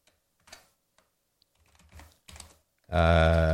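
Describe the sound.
Typing on a computer keyboard: scattered soft clicks and short bursts of keystrokes. It ends with a loud, steady, buzzing harmonic tone.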